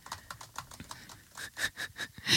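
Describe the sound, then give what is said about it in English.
Quick keypresses of numbers being typed into a calculator: many short, light taps in an uneven rhythm, a bit denser and louder toward the end, with no talking. “I'll just put it into the calculator.”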